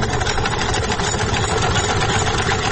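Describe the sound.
Steady whirring of a wheel-turned sewing machine, run by a tailor stitching women's clothing in Parun, Nuristan. An even, continuous mechanical hum with a rattling texture that holds without pause throughout.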